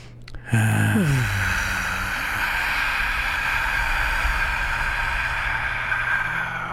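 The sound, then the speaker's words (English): A deep breath during a breathing exercise: a loud, steady, airy rush that starts abruptly and holds for several seconds with little change. “Yeah, let go all that stress. Inhale.”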